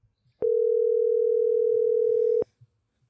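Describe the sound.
A telephone ringing tone plays while a call is placed to a friend: one steady, unbroken mid-pitched tone lasting about two seconds, alone, with near silence before and after.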